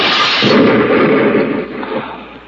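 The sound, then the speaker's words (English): A hand grenade explosion staged as a sound effect in a radio drama: one loud, deep roaring blast that holds for about two seconds, then rumbles and fades, with no voices. “Just one more string inside to pull... Hey, it's a firing pin of a grenade. Give me that. Look out!”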